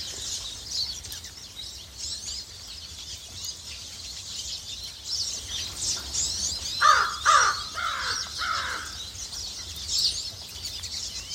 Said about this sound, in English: Notice the change when you hear the ravens.